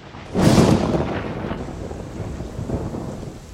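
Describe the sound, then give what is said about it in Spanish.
A thunderclap booms through a valley between mountains, then heavy, dense rain pours down in a steady, rushing hiss that carries on to the end. “un trueno hizo retumbar el valle entre montañas en el que ahora nos encontrábamos, y segundos después una tupida lluvia descargó sobre nosotros.”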